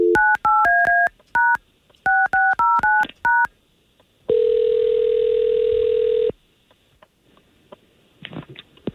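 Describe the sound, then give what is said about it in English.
Telephone keypad tones as a number is dialed: many short, crisp two-tone beeps in two quick bursts, followed by a steady two-second tone and then a few faint clicks, with no talk. “We're going to try to call him right now, okay?”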